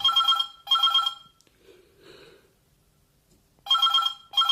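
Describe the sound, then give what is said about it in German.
A telephone rings loudly and harshly, trilling in two pairs of quick electronic bursts separated by a long, nearly silent pause that holds only a faint murmur. “Das Telefon klingelte, laut und unfreundlich.”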